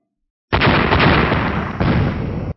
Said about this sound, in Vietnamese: Ba tiếng nổ vang lên, ánh đao huyết hồng chấn động kịch liệt, nổ văng tung tóe